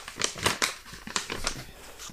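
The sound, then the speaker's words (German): Soft, faint rustling and crinkling as a hand rummages through paper slips in a wallet to draw one, a quick uneven series of light scraping crackles. “Brieftasche hier. Gerne. Kruschel nochmal rum.”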